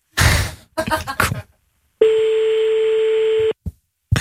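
A telephone call ringing out: one long, steady ring tone follows a few brief knocks and rustles, then cuts off abruptly.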